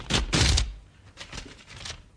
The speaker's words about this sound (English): Where's me swordfish letter opener?